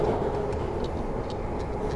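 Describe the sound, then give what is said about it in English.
Steam train rolling along its tracks: a steady, heavy rumble with light, evenly spaced clicks repeating over it in a regular clickety-clack rhythm. “a steam train.”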